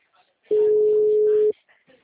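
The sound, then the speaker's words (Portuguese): A single steady telephone tone after a dropped phone call: one flat, mid-pitched beep lasting about a second, loud and even, with a few faint murmurs before and after it. “Sim, caiu a ligação.”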